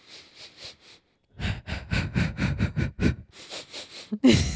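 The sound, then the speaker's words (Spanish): Breathing done as a calming exercise: a few soft breaths, a short pause, then a long run of loud, rapid, sniff-like inhales and exhales in a steady rhythm, with no talking. “Otra es respirar profundo y exhalar profundo, aunque cueste al principio.”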